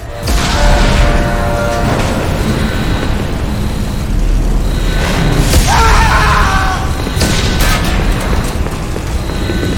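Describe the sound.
Explosions strike a spaceship in a sci-fi video game, booming and rumbling blasts layered over continuous heavy noise. The sound stays loud throughout, with sharper bursts flaring up in the later part.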